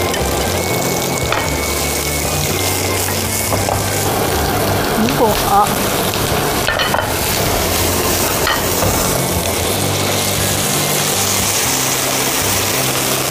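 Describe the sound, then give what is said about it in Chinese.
Food deep-frying in oil over high heat until crisp outside gives a loud, steady sizzle. The crackling hiss runs unbroken through the whole stretch. “要开大火。 最后一次了，对吗？ 对。 这次是要让它炸到 外面酥脆。 酥脆，同时不吃油。”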